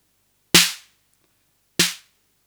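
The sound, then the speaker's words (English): Two snare hits from an unmodified drum machine, each a bright, noisy crack with a brief low thump. The hits are separated by about a second of silence. “if we go back to the unmodified machine.”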